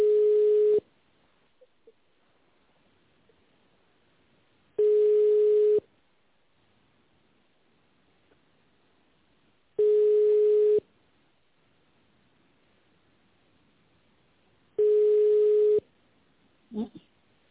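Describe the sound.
A telephone ringback tone plays while a call is forwarded to an operator: four steady, mid-pitched tones of about one second each, spaced roughly five seconds apart, with near silence between them.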